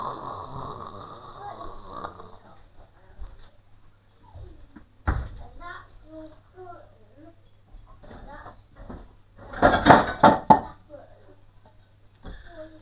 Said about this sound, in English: Let's get a pan.